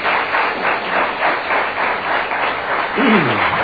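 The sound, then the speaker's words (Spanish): Audience applause at a live history talk: a steady wash of many hands clapping, sounding fairly muffled and band-limited, holding an even level throughout. “Lamento haber despertado a los muchachos que están durmiendo ahí con este aplauso.”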